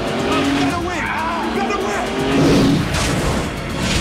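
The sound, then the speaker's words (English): Loud tire squeal from a car skidding out of control after being nudged by another car during a high-speed chase, the screech running over a continuous engine roar and swelling briefly midway. “Marcus nudges his car into Fouché's, sending it into an uncontrollable skid.”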